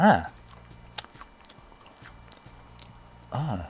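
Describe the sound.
Chewing of a sugar-coated, blueberry-flavored cracker from a box of expired snacks. A stretch of soft, crisp crunches and mouth sounds is framed by a brief hummed voice at the start and again at the end.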